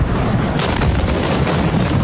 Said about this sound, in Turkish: Depoda önce yangın çıktı, ardından da şehri sarsan devasa bir patlama meydana geldi.